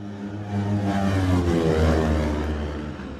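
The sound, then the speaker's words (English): A 916 racing motorcycle engine roars past during a road race at Cronk-ny-Mona. Its steady harmonic drone swells to a peak midway, then eases off. “Connor Cummins now makes Cronk the Mona as well on the 11 machine. He is 23.2. Listen to the 916 of Rob Hodgson.”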